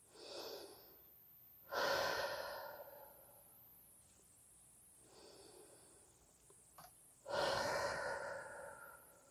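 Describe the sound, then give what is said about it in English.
Deep breathing, inhaling through the nose and exhaling through the mouth, in a few slow cycles; soft airy inhales alternate with louder, breathy exhales. “let's take 4 deep breaths. We'll inhale through our nose and exhale through our mouth.”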